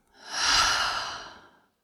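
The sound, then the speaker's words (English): A single deep, slow breath during a guided relaxation, in through the nose and out through the mouth, swelling to a soft rush and fading out, heard alone with no talk. “We're going to take that deep, full breath in through the nose. Out through the mouth.”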